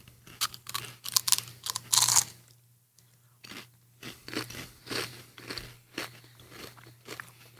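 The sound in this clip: Biting and crunching on tikka masala and tzatziki flavoured potato chips: a cluster of loud, crackly crunches, a short pause, then many rhythmic chewing crunches over a steady low hum.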